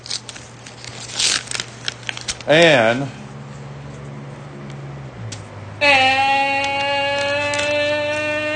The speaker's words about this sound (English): So I open this envelope.